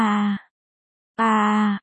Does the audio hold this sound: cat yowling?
no

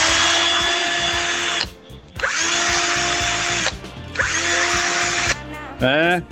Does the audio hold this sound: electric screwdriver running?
yes

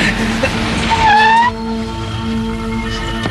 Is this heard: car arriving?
yes

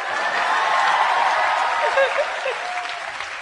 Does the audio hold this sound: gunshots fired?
no

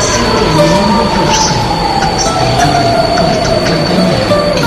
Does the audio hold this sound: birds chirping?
no

